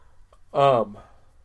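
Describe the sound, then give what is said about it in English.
A single short, voiced yawn, a brief groaning breath lasting under half a second, is moderately loud and heard alone. “excuse me, yawning”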